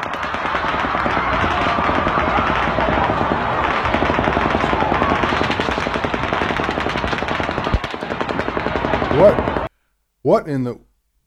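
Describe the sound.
Sustained automatic gunfire erupts as a concert comes to a close, loud rapid bursts of shots running continuously for several seconds before cutting off abruptly, followed by a brief voice.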